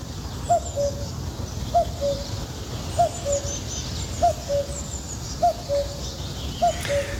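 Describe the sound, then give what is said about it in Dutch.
A cuckoo calls six times at an even, unhurried pace, each call a clear two-note phrase stepping down in pitch, standing alone over a faint, steady background hiss. “Zo goed had Marianne Smit uit Jouren de koekoek nog nooit gehoord.”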